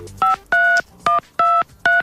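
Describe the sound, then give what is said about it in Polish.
Telephone keypad tones as a number is dialed: five loud, clear two-pitch beeps of uneven length, separated by short gaps, with no talk. “wykręca numery”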